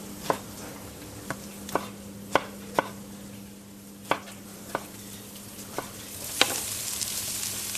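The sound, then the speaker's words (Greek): Fresh tomato is added to vegetables softening as they fry in a pan: a steady sizzle runs throughout, punctuated by many sharp knocks of a utensil stirring against the pan, with no talk. “Προσθέτουμε την ντομάτα στο τηγάνι.”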